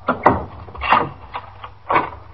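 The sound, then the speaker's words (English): A door chain being taken off and the door opened: a few woody clunks and rattles, some sharper than others, spread unevenly across the moment with no talk over them. “Oh, well, just a second. I'll take the chain off the door.”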